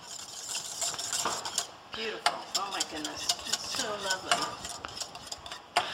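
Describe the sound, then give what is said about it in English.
A utensil stirring an off-white sauce for moussaka in a pan over the heat, with repeated scraping and clinking strokes against the pan in an uneven rhythm and a faint sizzle underneath. “By stirring this, you're getting the heat from the bottom of the pan to come up into the sauce.”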